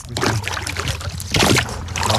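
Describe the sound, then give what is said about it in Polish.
Oars dip and splash as a rowboat sets off, giving dense, continuous watery sloshing with a short dip in the middle before it swells again. “Wiosła, będzie trzeba wiosłować. Nie będziemy jakichś długich wycieczek robić. Tak, uwaga, odpływamy.”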